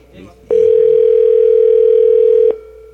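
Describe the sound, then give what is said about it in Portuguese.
A telephone line gives a busy signal during a call: one loud, steady tone of about two seconds with a clean start and stop, and faint talk just before it. “Tá o número está ocupado no momento.”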